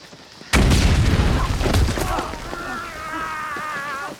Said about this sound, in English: As they mount a rise, Lewis treads on a hidden landmine.